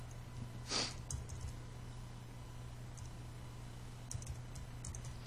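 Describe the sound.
A VIN is typed into a web form on a computer keyboard: a few soft, scattered key clicks, sparse and faint, over a steady low electrical hum, with one slightly louder tap near the start and no talking.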